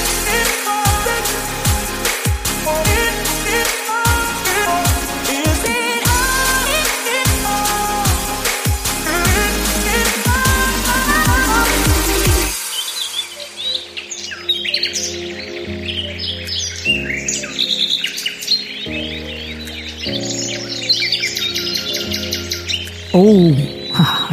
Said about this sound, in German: Gut, das klingt nach Entspannung. Willkommen im Wald.